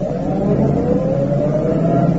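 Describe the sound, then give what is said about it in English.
A car engine drones as the vehicle comes up a driveway, a low, steady hum with a soft rumble that holds even throughout, with no voices. “There's a car. I see it. It's going to turn up our drive.”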